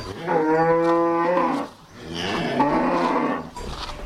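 Cows on a cattle farm moo twice: two long, low, drawn-out calls separated by a short pause, loud and with no talk over them.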